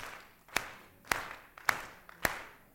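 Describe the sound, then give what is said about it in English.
Hand claps made with a curved, cupped palm give hollow baritone claps: four sharp, resonant claps evenly spaced about half a second apart, with a fifth starting at the very end and quiet gaps between. “Now, that's called a baritone clap.”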